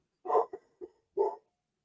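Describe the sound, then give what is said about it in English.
Dogs bark in a short burst of a few quick, mid-pitched yaps, the first and last loudest, with no talk over them. “I am letting my dogs bark, by the way, just so you all know what's happening and why I'm pausing.”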